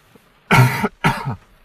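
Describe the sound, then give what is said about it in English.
Two loud, throaty coughs come in quick succession, alone against near silence, from a person who has been coughing all day without being sick. “Oh man, I've been like coughing all day.”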